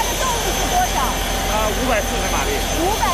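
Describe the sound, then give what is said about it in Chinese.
Steady engine drone from a 540-horsepower tugboat towing nine barges that carry 10,000 tons of cargo. The loud, constant rumble has voices faintly over it. “跑船人习惯叫它拖头。 然后这个整个动力全部都是靠它，九条船都是靠它拖的。”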